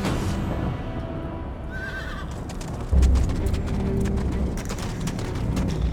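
Horse-drawn coach on a London street: one horse whinny near the start and steady hoof clip-clops throughout, over a continuous low rumble that grows louder about halfway through.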